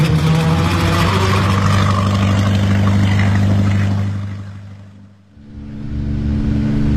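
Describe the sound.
A boat engine drones with a steady low hum under broad churning noise. It dips briefly, then resumes at a slightly altered pitch.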